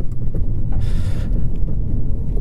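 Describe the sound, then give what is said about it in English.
A truck drives down a dusty dirt road, making a steady low rumble with a rough, wind-like hiss. A brief brighter swell of noise passes near the middle, and no one speaks. “Almost can't see anything going down this road now with this truck and this dirt”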